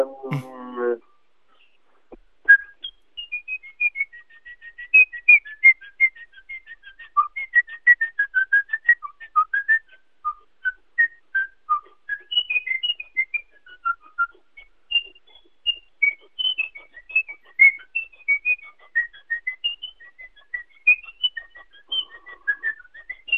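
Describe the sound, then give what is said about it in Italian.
Whistled melody of a Bach harpsichord prelude from the English Suites, carried in quick runs of many bright, clear notes that flow almost without pause. A brief voice is heard at the very start. “Oltre al fischio, certo. Di un preludio di Bach, del clavicembalo, le suite inglesi.”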